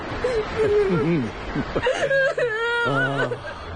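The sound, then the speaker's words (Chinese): A child cries alone in uneven bursts of whimpering and wailing, the sobbing voice wavering up and down before breaking into longer, strained cries. “好孩子，不哭啊，不哭。”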